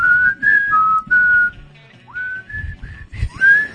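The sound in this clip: Whistled melody of the Hungarian national anthem, a clear tune of several sustained notes with gliding steps, loud over a low rumbling background.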